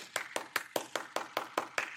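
One person stands and applauds with hand claps, giving nine crisp, faint claps at a steady, even pace with no other sound.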